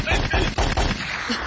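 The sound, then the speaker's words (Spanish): Gunshot sound effects: a rapid run of sharp cracking shots, about five in quick succession, loud and dense, fading into a short tail. “Bueno, pues ahora sí, cállese pues, échale. Échale los balazos.”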